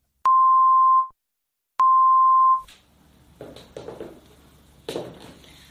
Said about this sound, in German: Um sicherzugehen, dass Sie Ihren Kopfhörer richtig herum aufhaben, werden vor dem Hörspiel zwei kurze Signaltöne erklingen. Der erste Ton links, der zweite rechts.